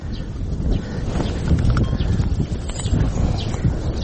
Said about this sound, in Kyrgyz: Эл жайлоого көчүп жаткан маалда атын такалатып келгендердин катары да калыңдайт.